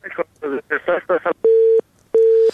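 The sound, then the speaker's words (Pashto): Telephone keypad button tones: two steady, even-pitched beeps of about a third of a second each follow a brief stretch of talk. “د تلیفون په سویچو باندې ګوتې مو وهنه دا ټونګ ټونګې مونږ ته راځي.”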